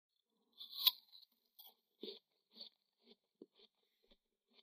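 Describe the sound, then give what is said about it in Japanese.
Biting into and chewing an apple: one sharp, loud crunch of the bite, then a series of quieter, irregularly spaced crunching chews that grow fainter toward the end. “そうそう、頂戴したリンゴを私もいただきましょう。”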